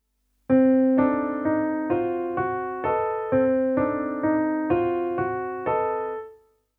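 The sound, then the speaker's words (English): Solo piano playing a chordal accompaniment part, a steady series of about a dozen chords struck at an even pulse, each decaying before the next, with no voices, fading out at the end. “On the piano, I'm going to play the music which accompanies the melody we heard before.”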